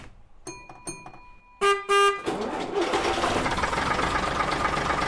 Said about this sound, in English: is a 1965 AEC Routemaster, formerly operated by London Transport.